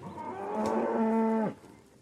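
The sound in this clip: A cow moos on a small livestock farm with cows and calves. It is a single, low, drawn-out bellow lasting over a second, holding steady and then dropping off sharply, heard alone.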